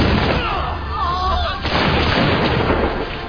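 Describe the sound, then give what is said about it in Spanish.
Musket volley fired by British troops at colonists in an early battle of the American Revolution, a dense, loud, continuous roar of overlapping shots without distinct single reports. “Preparan sus fusiles Broadheads y disparan contra los colonos.”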